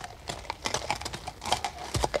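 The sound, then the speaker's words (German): Horse hooves clatter on cobblestones as more than one horse arrives, giving many faint, irregular clopping knocks with no talk over them. “Als die Hufe unserer Pferde auf den Pflasterstein klapperten, trat er vor die Tür.”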